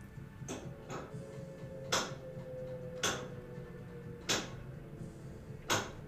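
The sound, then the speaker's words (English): A washing machine clacks loudly while it runs, giving a steady series of sharp knocks about one per second over a constant low rumble. “the washer is so fucking loud right now.”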